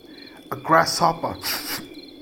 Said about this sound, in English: a grasshopper nearby began a joyous but very raspy song.